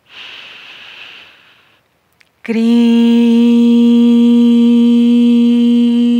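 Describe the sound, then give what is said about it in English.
A deep inhalation during a spiritual breathing exercise, heard as a steady airy hiss lasting just under two seconds. After a brief silence, a loud, sustained, steady harmonic tone begins and holds. “We inhale again.”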